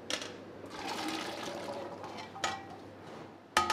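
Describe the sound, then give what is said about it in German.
Carrots, celery and potatoes drop into simmering soup, giving a faint watery rush with a few soft splashy plops standing out from the steady bubbling. “Was da drauf? Karotten, Sellerie und Kartoffel. Ab in die Suppe.”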